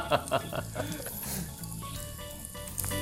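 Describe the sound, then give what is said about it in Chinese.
Potato cakes fry in a pan, giving a steady, soft crackling sizzle throughout, with a few sharper pops and ticks near the start. “哎呦，这个只这样子煎起来，我觉得就一定很好吃了呢。”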